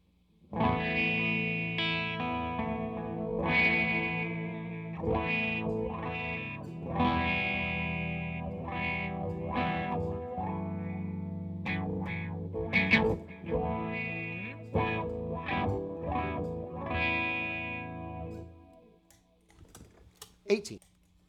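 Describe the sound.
Clean electric guitar, a Les Paul played through a wah pedal, strums chords and picks notes for about twenty seconds. Crisp pick attacks and ringing sustained tones fade out at the end.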